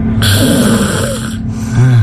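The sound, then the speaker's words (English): Loud human snoring from a contestant in a loudest-snoring competition: a long, harsh, rasping snore is followed by the rumbling start of another, alone with no talk. “I'm going to play you two snorers.”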